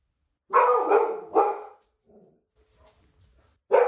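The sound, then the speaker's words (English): A dog barks at something outside: three quick, loud barks in a row, then a quiet pause before a fourth bark begins right at the end. “Give me a second. That's my dog. Apparently there's something outside that got her attention.”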